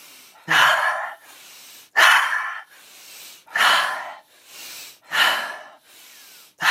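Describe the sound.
Deep rhythmic breathing during a breathwork session: a steady series of loud, airy inhales and exhales, with strong breaths alternating with softer ones at an even pace and no talking.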